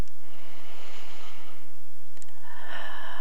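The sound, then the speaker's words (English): Slow, deep breaths taken during a relaxation exercise: two long, airy swells of soft breathy hiss, steady and unhurried, with no talking over them. “And sometimes just the act of breathing deeply when things are rough can restore a sense of equanimity or even mindedness. I'm just taking some breaths,”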